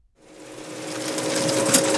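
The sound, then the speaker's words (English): Factory machinery hums as it fills bottles of dietary supplements at a natural health products plant in northern Nevada. The steady mechanical whir fades in quickly, then holds at an even level with a constant tone. “At Now Foods Factory in Northern Nevada, the manufacturer of natural health products is pumping out bottles of dietary supplements, from vitamin A soft gels to zinc tablets.”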